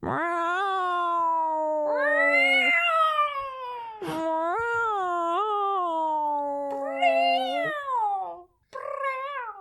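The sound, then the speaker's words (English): A cat meowing in long, drawn-out, wavering yowls, several in a row with brief pauses between them. The cries are loud, fairly deep and unaccompanied. “That cat! Yeah? It sounds huge, doesn't it?”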